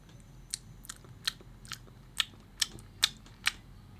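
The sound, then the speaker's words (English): Loud open-mouthed chewing while eating produces crisp, wet crunching bites, about eight of them in a steady rhythm, clear and alone over a quiet background. “Irrational pet peeve, eh? When someone does this when they're eating.”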